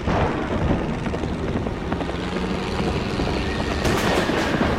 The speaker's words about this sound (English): Lightning flashes around the plane, which is buffeted by wind and rain.